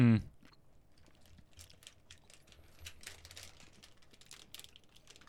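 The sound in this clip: Faint, crisp crunching and chewing of a crunchy, slightly hard, sweet and spicy brownie, with many small irregular crackles after a brief louder thump at the start.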